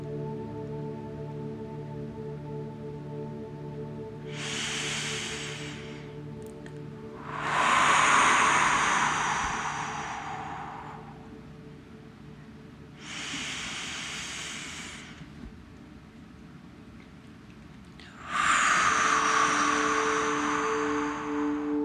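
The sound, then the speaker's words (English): Rhythmic deep breathing during a breathwork session: four long, airy breaths swell and fade in a slow, even cycle over a steady, sustained tonal bed. “Keeping that breath moving. Finding your body's rhythm,”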